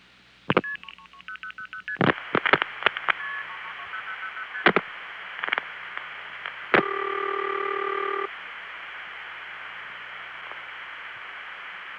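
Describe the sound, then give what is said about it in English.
Telephone call to the Fort Myers, Florida area routed through a tandem switch: a run of sharp clicks and short multifrequency signalling tone bursts, then a sustained multi-tone chord, then faint line hiss. “here are calls to the Fort Myers, Florida area through four different routes”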